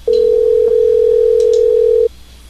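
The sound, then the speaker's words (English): Telephone ringback tone on an outgoing call: one steady, pure, loud tone lasting about two seconds, then cutting off into quiet. “Seems like it's ringing.”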